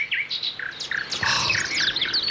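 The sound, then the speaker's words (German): Birds chirping outside in the morning: quick, high, bright tweets and short trills repeat and overlap, fairly soft and steady with no voices. “Man wird ganz sachte geweckt von diesem herrlichen Vogelgezwitscher draußen.”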